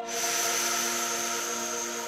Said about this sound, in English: Take a deep breath in.